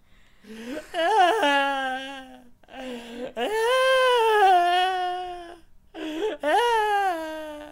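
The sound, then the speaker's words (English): A voice imitates a woman's wailing and weeping in three long, wavering wails, each broken by catching, sob-like breaks, moderately loud with short silences between. “her wailing, weeping sounds, which probably sounds something a little like this”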